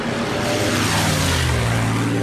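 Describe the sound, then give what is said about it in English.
A loud, continuous engine roar from a fighter plane diving toward a grounded plane, a thick, rumbling drone with a strong low end that holds steady throughout. “Billy dives towards a grounded plane. We caught him on the ground! Clip his wings, Cap! Yahoo! Ready or not, I'm rolling in.”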